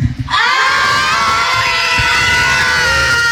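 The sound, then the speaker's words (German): Around 200 schoolchildren packed into a studio break into a loud, sustained shout after a brief moment of quiet, a dense, high-pitched roar of young voices that holds steady to the end. “Und so, und wenn hier gefühlt einfach mal 200 Kinder im Studio stehen, dann klingt das wie?”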